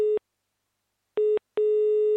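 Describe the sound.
A telephone busy signal during a call-in line: three steady, mid-pitched electronic tone bursts separated by silence, the first cut off at the start and the last held longest.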